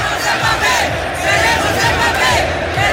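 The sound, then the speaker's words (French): Stadium crowd at the Bernabéu in Madrid chanting Kylian Mbappé's name before Eden Hazard's presentation: a loud, dense roar of many voices sustained throughout, with rhythmic swells of the chant. “Hier soir à Bernabéu, au stade de Madrid, lors de la présentation d'Hazard, quelques minutes avant, le public du stade madrilène qui scande le nom de Kylian Mbappé en disant « Nous voulons Mbappé ».”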